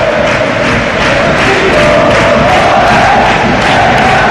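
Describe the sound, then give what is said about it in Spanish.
Real Betis football fans sing in a packed stadium at La Cartuja, a loud, sustained chant from a large crowd that holds a steady tone and swells slightly partway through. “Ahora también los béticos que también se unen a la canción.”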